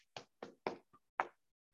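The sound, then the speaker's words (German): Soft hand taps on an arm during a self-tapping massage that runs from the shoulder down the arm to the fingers: a series of faint, dull thuds in an uneven rhythm with short silences between them. “dann den Oberarm und den ganzen Arm bis in die Hand, bis in die Finger klopfen.”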